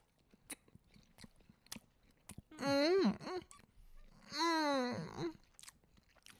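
Faint biting and chewing on a wild mushroom variety of snack food, soft scattered crunchy clicks throughout, with two louder drawn-out voiced hums or moans from the eater breaking in near the middle.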